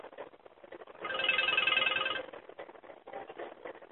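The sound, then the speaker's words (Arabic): A mobile phone rings during a lecture in a mosque. It gives a single faint burst of electronic ringtone with a steady, bright tone, heard alone between quiet stretches. “ده مين ده؟ تلفوني أنا؟”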